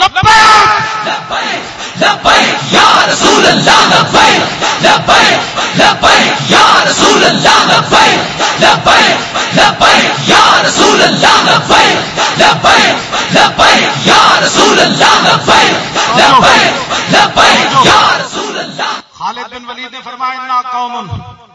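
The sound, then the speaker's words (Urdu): A large crowd chants the Labbaik slogan, loud shouts in unison repeated in a steady rhythm for nearly twenty seconds before breaking off abruptly. “جب بھی پریشانی آئے تو لبیک کا نعرہ لگا”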